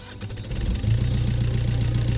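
A boat engine starts on a summer night as it sets out to sea from a harbour. It catches after a brief low rumble, then settles into a loud, steady, throbbing idle.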